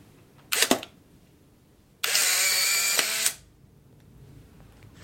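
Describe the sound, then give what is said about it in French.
An instant camera takes a photo: a sharp shutter click, then about a second later a steady motorised whir that runs for just over a second before stopping. “Et ça, c'est le black tap qui permet de protéger la première image. Je vais vous prendre en photo.”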